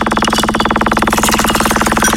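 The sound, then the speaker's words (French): A prize wheel spins during a radio call-in game, making a loud, rapid and evenly spaced clicking that holds a steady rhythm throughout. “On lance justement cette roue. Cette roue, tu l'entends, elle tourne.”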